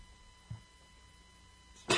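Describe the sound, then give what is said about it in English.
A person sneezes in a tight room. A faint short sound comes first, and the sneeze itself is a sudden loud burst at the very end. “I had to sneeze, guys.”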